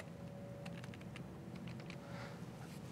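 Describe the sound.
Very faint typing on a computer keyboard by someone struggling with an unfamiliar layout, a scattering of light clicks over a steady low hum.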